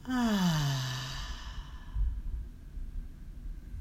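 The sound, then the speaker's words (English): A deep breath out during a guided breathing exercise, starting as a soft voiced sigh that slides down in pitch and then trails into faint, airy breathing. Quiet and alone, with no talk. “And our third breath in together. Breathe in and out.”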